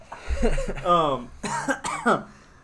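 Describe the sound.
Coughing and harsh throat clearing from a person with something stuck in the throat: a low thump, then a few strained, voiced hacking bursts of medium loudness.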